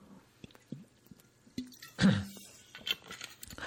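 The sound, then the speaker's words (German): Someone takes a sip of a drink: faint mouth clicks and small wet ticks lead into one louder gulping swallow, then a few more soft clicks. “Entschuldigung, ich muss glaube ich mal einen Schluck trinken.”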